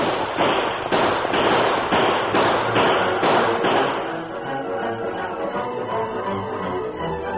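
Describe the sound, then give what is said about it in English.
A volley of gunfire aimed at a group of riders: many rapid, overlapping sharp shots crackling loudly for about four seconds, then thinning into a softer rumbling, popping tail. “the Lone Ranger and Tonto, and the first volley of lead that whistled among them caused surprise and consternation”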